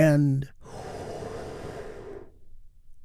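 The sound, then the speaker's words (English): A deep breath drawn in and let out during a guided healing-breath exercise: a long, steady, airy rush of breathing lasting under two seconds after a brief voiced tone, then fading to quiet. “Let's take one more big, deep, healing breath all together. Here we go.”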